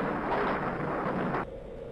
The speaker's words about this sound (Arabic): أبعد المسؤولون الجميع عن مكان الخطر ثم فجروا الكتلة المنزلقة،